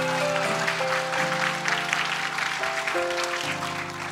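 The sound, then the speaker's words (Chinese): Congregation clapping hands in praise during a church service, a steady wash of dense applause that runs throughout beneath sustained keyboard chords that shift pitch several times. “我们拍手将荣耀归给神，哈利路亚。”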